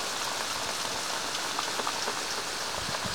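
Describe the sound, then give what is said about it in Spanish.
Rain falling steadily, a dense, even hiss of drops with faint scattered ticks and patters throughout, no voices. “Parece que llueve otra vez.”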